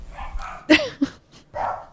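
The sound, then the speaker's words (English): A young dog that has just joined a household barks while its owner works, giving a few sharp, mid-pitched barks in quick succession and then a longer, drawn-out bark, loud against a quiet background. “I apologize if you hear the barking in the background.”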